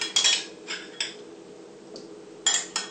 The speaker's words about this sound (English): In the meantime, I'll take up my bowls and I'll start to put in my tropical fruit into each bowl.